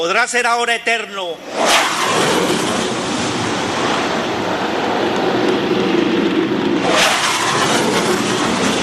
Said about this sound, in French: Un avion de chasse surgit en rasant le centre de convention.